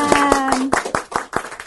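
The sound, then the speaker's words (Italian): Hands clap in an even, brisk rhythm at a church gathering, about eight sharp claps spaced regularly. A voice speaks over the first few claps. “si merita un applauso”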